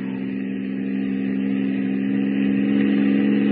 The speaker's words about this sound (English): What is the fool doing driving on a pitch dark night like this without lights?